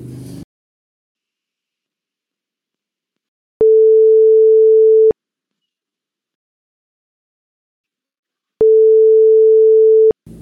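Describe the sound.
Telephone ringback tone while calling someone: two long, steady mid-pitched tone bursts, each about a second and a half, separated by several seconds of silence.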